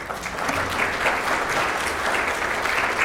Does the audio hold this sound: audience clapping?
yes